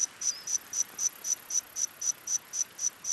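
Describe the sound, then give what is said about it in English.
Modeled calls of a prehistoric insect from dinosaur times: a steady series of about a dozen short, high-pitched, cricket-like chirps pulsing at an even rhythm, with no other sounds. “Scientists have modeled the calls of insects that lived alongside the dinosaurs.”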